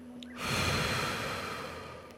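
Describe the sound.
Slow, breathy exhale during a breathing exercise: one long, soft rush of air that begins abruptly after a short quiet moment and then gradually fades, with no talk.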